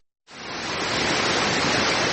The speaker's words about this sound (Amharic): ይህ በኢሉ አባቦር ዞን በቾ ወረዳ የሚገኘው የሶር ፏፏቴ ነው።